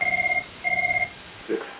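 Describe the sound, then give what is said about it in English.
A phone rings in the background with two short bursts of warbling electronic trill, fairly faint, separated by a brief pause. “Sorry, that's my other phone ringing in the background.”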